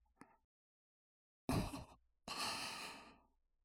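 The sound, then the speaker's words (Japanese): Soft blowing breaths, 'fuu fuu', as if cooling something: a faint short breath, then two longer, airy puffs of air, each gentle and unvoiced, with no talk. “私も、ふうふうするの、ちょっと楽しくなってきちゃいました。”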